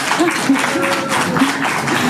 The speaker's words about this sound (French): on l'applaudit.